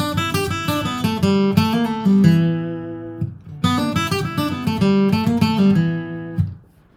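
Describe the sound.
A flatpicked guitar lick in E minor pentatonic, heard alone: a quick run of crisp picked notes is played twice. Each pass settles onto a held note, and the second one fades out at the close.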